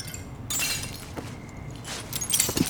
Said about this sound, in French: Il jeta quelques pierres pour briser la vitre.